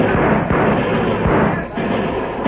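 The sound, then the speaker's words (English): Gunfire as homesteaders and cattlemen open fire on Texas gunmen in a Johnson County range fight: a loud, dense volley of sharp shots cracks over a continuous roar, with no pause for the whole stretch. “Tell the homesteaders and cattlemen to open fire. Right now. Now, boys! Open fire on those Texas killers!”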